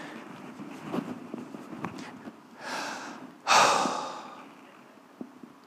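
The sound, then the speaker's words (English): A person takes a deep breath: two broad, airy breath sounds in quick succession, the second louder and longer, with quiet surroundings before and after. “I breathed. I took a breath.”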